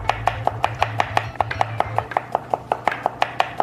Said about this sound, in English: Try to cut as thin as possible.